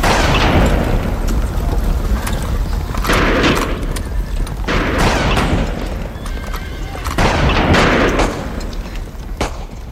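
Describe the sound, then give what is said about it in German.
Rifle shots fired by a man who runs onto a country road and aims at charging horsemen in wartime: a few heavy, booming blasts stand out from a loud, continuous rumbling wash of noise. “Kühler André mit dem Gewehr in der Hand rennt aus dem Vorgarten auf die Landstraße, legt an und schießt.”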